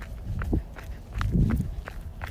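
Footsteps walking down stairs on an outdoor trail, a steady series of soft thuds and gritty scuffs at an even pace, with no talking.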